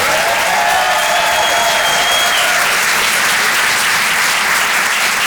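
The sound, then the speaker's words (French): Comedy club audience applauding a comedian after his set: loud, thick, continuous clapping that holds at a steady level for about five seconds. “Faites du bruit, s'il vous plaît, pour Vincent Serroussi.”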